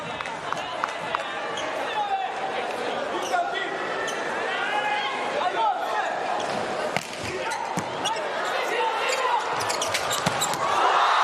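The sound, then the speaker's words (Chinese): Volleyball bounced on the court before a serve in a professional match: a few hollow bounces under a commentator's voice and constant crowd noise, with sharp squeaks and claps scattered throughout. “哈内斯发球”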